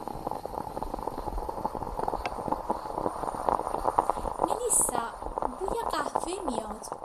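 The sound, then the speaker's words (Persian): Coffee boils in a pot on a gas stove, a soft continuous bubbling and gurgling that runs steadily underneath people talking. “گذاشتی رو گاز حواست باش نسوزه ها وای درست میگی انقدر مشهور صحبت بودم که کاملا قهوه یادم رفت ببخشید من میدم گاز رو خاموش کنم”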